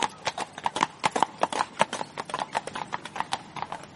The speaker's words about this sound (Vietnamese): Một người đàn ông vẫn trang phục hiệu úy cưỡi ngựa lại gần